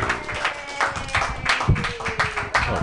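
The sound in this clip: Applause and clapping from an open mic comedy audience after a comedian's set, a steady dense patter of hands with a few sharper claps and faint voices mixed in.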